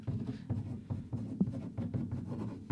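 A pen scratches across paper as a single word is written by hand: a steady run of soft, dry strokes and light taps, fairly quiet, with no voices.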